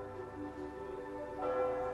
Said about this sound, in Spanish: Las campanas de una iglesia suenan de fondo